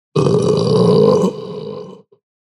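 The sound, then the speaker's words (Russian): A single long, loud, deep burp from a drinker, rumbling steadily for almost two seconds before easing slightly and cutting off, with a tiny trailing sputter. “Громогласная и извергнутая с явным огромным удовольствием отрыжка”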